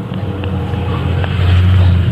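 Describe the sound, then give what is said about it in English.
A car speeding past gives a low, rough engine rumble with some wind-like noise, swelling a little louder in the second half. “Wow, people sure drive fast around here.”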